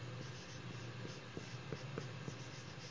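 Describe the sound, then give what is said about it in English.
A pen or marker writes on a board during a Bible lecture, producing faint, short scratching strokes in an irregular series against a quiet hiss. “And so what I write here is what Scripture puts here”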